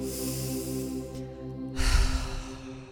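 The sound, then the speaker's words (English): A deep breath is drawn in through the nose and let out through the mouth: a soft intake, then a louder, breathy exhale. Steady sustained musical tones hold underneath throughout. “And now take a deep breath in through the nose, out through the mouth.”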